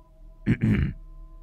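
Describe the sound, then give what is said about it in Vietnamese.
A man clears his throat with two short, rough guttural bursts close together, the second longer and fuller, followed by quiet with no speech. “Thằng Thật hắng giọng nói tiếp.”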